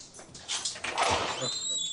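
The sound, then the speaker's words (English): A dog whines and whimpers with a thin, high-pitched tone that rises out of a brief, noisy burst of movement and rustling. “I'm guessing it's the dog. Yeah, sorry guys. No worries. That was the dog.”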